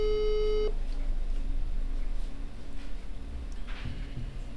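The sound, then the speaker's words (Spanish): A telephone line tone while a call is placed: one steady beep lasting under a second, then hissy line noise with faint clicks. “Ahí lo estamos llamando, a ver si nos atiende.”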